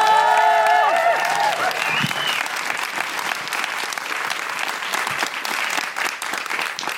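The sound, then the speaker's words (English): Audience applause welcoming a comedian to the stage, a dense, loud wash of clapping that follows a brief musical sting at the start and continues steadily to the end. “Will you put your hands together and welcome to the stage, Deborah Frances Wong!”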